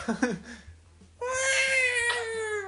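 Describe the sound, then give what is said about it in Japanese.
A voice imitates cats fighting outside a house: a few short, whiny yowls, then a long, loud, sustained caterwauling wail with strong harmonics that holds to the end. “僕の家の前で喧嘩してる猫の声”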